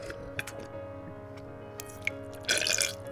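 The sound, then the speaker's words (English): A voice imitates a wet fart, producing a short, squelchy, sputtering burst near the end after a few faint clicks. The whole clip is quiet. “she let that little wet rip go. This is what it sounds like. Listen, see if I can make it, I can duplicate it.”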